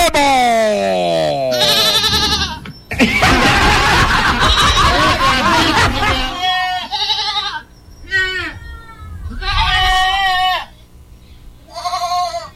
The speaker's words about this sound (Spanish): vamos a sacarle leche a las cabras al corral